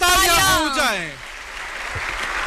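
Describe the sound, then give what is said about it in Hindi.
Audience applause at a public event welcoming a prime minister: a voice sweeps through the opening second, then a dense, steady wash of clapping continues at moderate loudness to the end. “देवियों और सज्जनों, तालियों की गड़गड़ाहट रुकनी नहीं चाहिए.”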